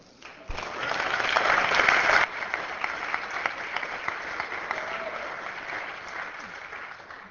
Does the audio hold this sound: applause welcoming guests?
yes